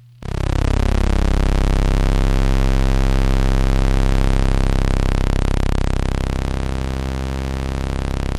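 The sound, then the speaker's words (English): Sustained synthesizer tone with a morphing waveform from a new software synth, alone and loud throughout, its dense harmonics sweeping and shifting in a continuous, evolving buzz. “That was the sound of a morphing waveform.”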